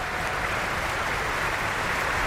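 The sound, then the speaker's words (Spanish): Dense, steady applause from the audience at the Bayreuth Festspielhaus, greeting the three Rhinemaidens at a curtain call. The clapping holds an even level throughout, with no voices. “Vamos a compartir esta emoción que vive el público del Festspielhaus de Bayreuth, pues escuchando esos aplausos que van dando al elenco que va”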